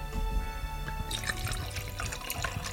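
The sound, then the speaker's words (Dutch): Red wine pours from an already opened bottle, a soft, continuous liquid trickle and gurgle at low level with no voices. “wat kan ik voor je inschenken in je eigen huis? Nou, ik heb achter op de plank heb ik nog een flesje rood staan. Die is volgens mij al aangebroken.”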